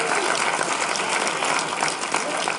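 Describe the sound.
Audience applause at a live on-stage interview at a photography event, a dense, steady wash of clapping that holds evenly through the whole moment.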